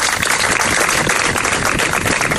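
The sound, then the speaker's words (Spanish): Applause from those gathered at the end of a memorial ceremony for terrorism victims, held beside a monolith in public gardens. Dense, continuous clapping with an even loudness fills the whole stretch, with no music or voices. “Así terminaba ese emotivo acto de ayer tarde con estos aplausos.”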